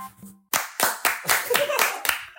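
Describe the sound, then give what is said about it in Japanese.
A group of people clap in unison, a quick run of sharp, tightly synchronized claps that starts abruptly after a brief voice at the opening and keeps an even rhythm to the end. “拍手のタイミング。 全くずれてない。”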